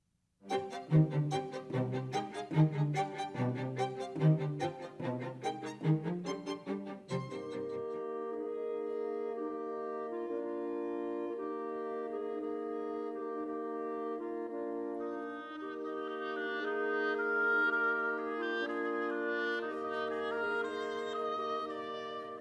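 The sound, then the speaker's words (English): Montage of orchestral music composed by South Dakota teenagers at a symphony orchestra composition academy: about seven seconds of rhythmic, bright plucked or struck notes, then sustained harmonic chords that swell in the later part, with no voices. “What you're hearing now is a montage of music written by South Dakota teenagers as part of the South Dakota Symphony Orchestra's Music Composition Academy.”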